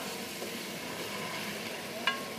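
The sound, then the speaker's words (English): A cooking pot sizzles faintly after a little water is added to melt the softened ingredients. The hiss is soft and steady, with one brief sharp click near the end. “I want them to melt. So I add a little bit of water, just a little bit. And now they kind of will disintegrate”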